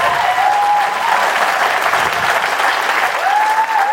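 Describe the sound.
Applause from a live show audience fills the whole clip as a steady, dense wash of clapping that holds at an even loudness throughout.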